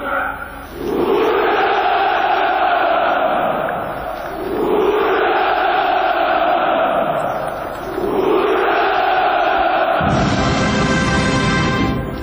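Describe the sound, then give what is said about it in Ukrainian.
A massed crowd at a Victory Day celebration shouts 'Hurrah' in three long, drawn-out, loud chants, each swelling and fading over a few seconds, with brief gaps between them. “Апогеєм святкування був заклик «Ура» і спів гімну Росії під музику колишнього гімну Радянського Союзу.”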